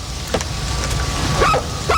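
A dog gives a few short, faint barks over a steady low background hum, the clearest two coming near the end.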